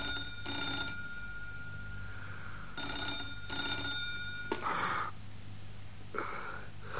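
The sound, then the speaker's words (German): A telephone rings in repeated short double bursts, fairly quiet, over a low steady hum. “Doch da klingelte das Telefon.”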